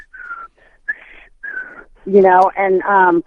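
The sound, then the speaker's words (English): A voice imitates a whistle signal: a few thin, whistle-like notes, then three loud hummed tones, with no other sound. “Every time I would come home, I would hear a certain signal. It was like a whistle. It would go,”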